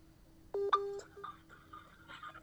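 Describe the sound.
Electronic telephone tones as a call is dialed and connected: a short burst of steady, pitched beeps with a brighter tone at the end, followed by faint quieter sounds.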